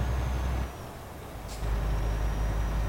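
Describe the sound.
A truck's engine in a driving video game drones low and steady on the road out of Klagenfurt. The rumble dips briefly, then returns louder, with a short hiss in the middle.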